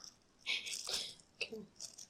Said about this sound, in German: Nee, ich habe hier gerade so eine Tüte mit 2 Schrauben drin. Die habe ich aufmachen.